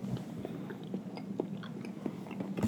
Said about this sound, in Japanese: 咀嚼音うるさいよね。 ん？ 咀嚼音うるさい。